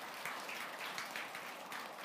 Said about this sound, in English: let's give the Lord a clap of praise.